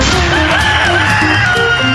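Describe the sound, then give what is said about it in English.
Roosters crowing: several loud, drawn-out crows overlap one another, rising and falling in pitch, with no talking over them. “Roosters. Hello, roosters.”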